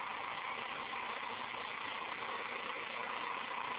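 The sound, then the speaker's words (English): A faint, steady whir comes from a small electric motor with three coils on an eight-magnet rotor, running on a 12-volt battery, holding an even, unbroken hum throughout. “Okay, this is on a 12-volt battery.”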